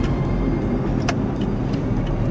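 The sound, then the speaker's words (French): Road traffic with trucks in a port area: a steady, dense rumble of vehicles with a low engine drone throughout, no voices. “il y a quand même pas mal de circulation, des camions.”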